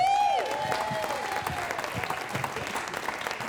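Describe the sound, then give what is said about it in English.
An audience at a live show applauds to welcome the first guest on stage. Full, crowded clapping starts loud, eases a little and then continues steadily, with a brief falling tone at the very start. “Could you put your hands together and welcome our first guest, Carla Zaid.”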